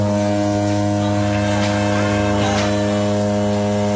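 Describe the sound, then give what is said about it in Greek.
A passenger ferry's horn sounds as one continuous, loud, low buzzing blast rich in harmonics, held steady without a break for the whole stretch. “Αυτή είναι η Μπουρού από το Διονύσιο Σολωμό.”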